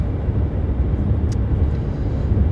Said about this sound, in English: Sorry for the bad audio. I'm in my car right now. I am driving back to my studio.